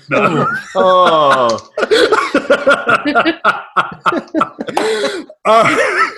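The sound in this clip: A voice imitates phlegmy throat clearing to mimic mucus and secretion, producing several loud, rough, guttural hacks and gurgling rasps in uneven bursts, with short breaks between them.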